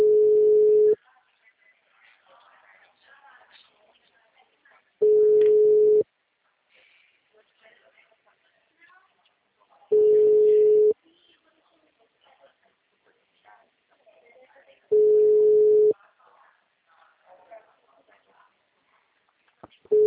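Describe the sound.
A telephone tone sounds in one-second pulses every five seconds, four full beeps and the start of a fifth, as a call fails to connect. Faint, indistinct sounds fill the gaps.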